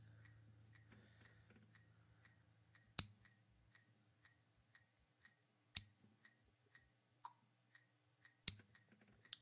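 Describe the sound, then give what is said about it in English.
Fingernails being trimmed with clippers give three sharp snips spaced a few seconds apart, with a softer click between the last two, over faint steady ticking. “Trimming my fingernails, maybe it'll get a little better.”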